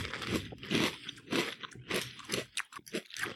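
Golden Grahams cereal with a sugar coating, eaten in milk, gives a run of crisp, crunchy chewing. Many bites come in a loose, steady rhythm, with no talk over them.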